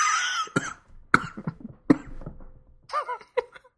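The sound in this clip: Coughing from a piece of shellfish stuck in the throat during a beer tasting: a series of sharp, harsh bursts, followed by brief voiced throaty sounds.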